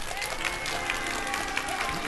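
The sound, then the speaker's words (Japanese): Steady applause from an audience as a crystal-ball entertainer's performance ends, a moderately quiet, even patter of many hands that continues throughout. “拍手でお答えください。楽しんでいただけましたでしょうか。”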